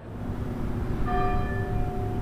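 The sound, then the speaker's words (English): A single deep strike of the First Baptist Church bell rings out at a memorial service before a groundbreaking, part of a tolling of 26 strokes. Its ringing overtones hang and slowly fade over a steady murmur of background noise. “During the service before the groundbreaking, the bell of First Baptist Church rings 26 times, once for each victim.”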